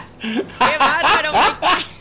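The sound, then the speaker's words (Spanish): A small bird whistles a thin, high repeated note, broken by several louder, harsh chirping bursts in quick succession. “Qué chifla el pajarito.”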